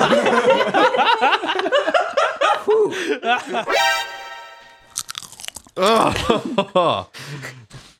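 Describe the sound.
Close, ASMR-style crunching and chewing of a chip in the mouth, with loud crackly bursts and harmonic, voice-like sounds that may be laughter.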